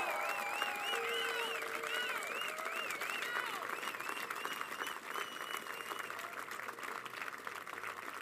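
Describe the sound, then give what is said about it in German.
Sustained audience applause at a commemoration for a murdered politician: loud, dense clapping that carries on evenly for several seconds, with wavering voices rising over it early on before settling into a steady patter. “Applaus”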